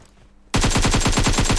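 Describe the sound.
Rapid automatic gunfire from a video game breaks in abruptly after half a second of quiet. It runs as a loud, steady stream of many rattling shots to the end.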